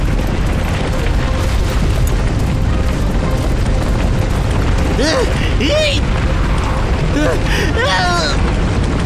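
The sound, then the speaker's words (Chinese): A mudslide roars as it sweeps away an alligator boat in an animated show. The loud rushing rumble runs continuously throughout, with voices speaking over it in the second half. “糟糕，短吻鳄艇被泥石流冲走了， 快启动舰体固定器。”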